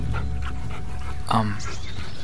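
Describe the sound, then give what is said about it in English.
A three-headed dog whimpers with a short, whiny yelp-like cry partway through, set among faint panting and breathy sounds, with people talking around it. “your dog has three heads. Whoa. No, sir, sit. Be nice.”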